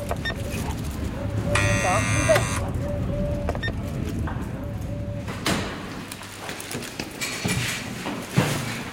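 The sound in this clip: A door buzzer rings once in a harsh, steady electric buzz lasting about a second, over background voices and noise.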